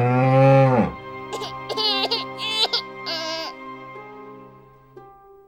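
An ox moos in a stable on fresh straw, a deep, drawn-out low call. A few higher, wavering animal calls follow, growing fainter toward the end.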